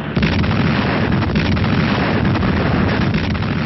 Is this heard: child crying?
no

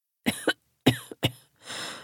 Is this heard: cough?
yes

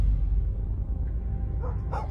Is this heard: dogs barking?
yes

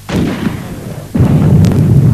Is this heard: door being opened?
no

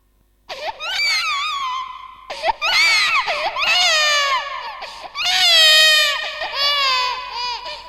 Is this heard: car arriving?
no

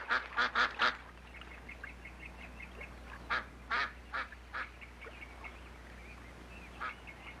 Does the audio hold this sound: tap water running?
no

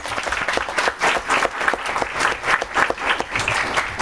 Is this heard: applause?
yes

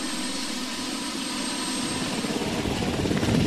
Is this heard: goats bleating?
no

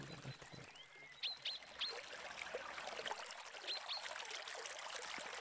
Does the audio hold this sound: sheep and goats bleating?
no

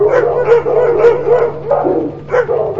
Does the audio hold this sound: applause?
no

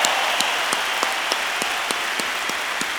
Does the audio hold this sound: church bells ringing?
no

